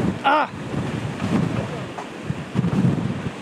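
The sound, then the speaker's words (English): Strong hurricane wind gusts from a Category 4 storm at landfall roar across the microphone in a continuous rush that swells and surges, with a brief voice near the start. “These gusts are making it difficult for us to stand up.”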